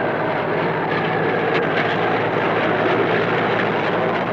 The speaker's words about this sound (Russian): Трактор по заснеженному полю тащит груз на сани.